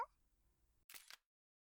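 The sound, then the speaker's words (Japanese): A camera shutter taking a photo: a faint, brief mechanical click in two quick parts, followed by silence. “おじさんの恥ずかしい写真、撮っちった。”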